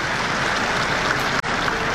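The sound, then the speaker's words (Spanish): Crowd applause in a public square for mothers, a dense, steady clapping wash that holds at an even level throughout, with a brief dip near the middle. “Un aplauso a todas las madres de la plaza.”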